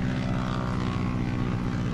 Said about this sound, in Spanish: Mientras piloto mi avioneta y como golosinas